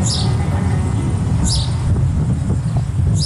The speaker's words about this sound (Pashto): د مرغۍ چڼا ته یې سترګې پټې ونیولې